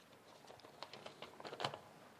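Sheet of paper folded into a paper plane by members of a scout group: faint, irregular rustles and soft crinkling taps.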